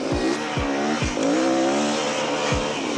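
Racing car engine in a video game drones loudly and steadily, its pitch climbing as it accelerates, with a few low thumps and hints of tire squeal in the mix.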